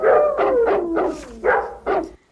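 A dog barks and howls in a run of about six drawn-out, whining barks. Each bark slides down in pitch, loud and unaccompanied, and the run ends abruptly.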